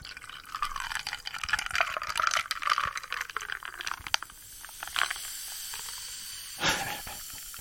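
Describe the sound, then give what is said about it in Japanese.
Fizzing hiss as a bottle of tonic water is opened and poured into a glass: steady carbonated crackle with a few brief, sharper bursts toward the end, and no talking. “トニックウォーター、開けますね。今度はこっち側で注いでみるか。”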